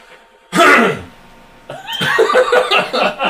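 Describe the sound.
One loud, rough throat clearing from someone with something caught in their throat, followed by a person talking.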